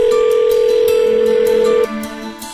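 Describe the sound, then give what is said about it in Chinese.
A telephone line tone sounds as a radio listener's call is answered: a steady, clear pitched tone for nearly two seconds, then it cuts to a fainter, lower tone. “我们现在就开始令人振奋的电话连线环节吧，来，让我们接听第一位听众的来电。”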